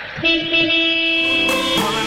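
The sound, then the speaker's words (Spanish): A morning horn toot: one loud, steady, tonal blast that holds its pitch for over a second and a half before shifting briefly near the end, with no talk over it. “¿Y el pito? ¿Y el pito? ¿Dónde está el pito? Ese pito mañanero, mira.”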